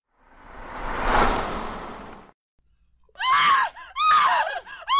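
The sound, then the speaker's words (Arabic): A woman screams outside in a radio drama: first a long, swelling, breathy roar, then after a brief silence two shrill, piercing harmonic shrieks in quick succession. “كنت في الحمام عندما سمعت الصرخة الأنثوية بالخارج. لم تكن صرخة سلمة، لكني على الأقل أعرف أنها صرخة أنثى تذبح أو تنتزع عيناها.”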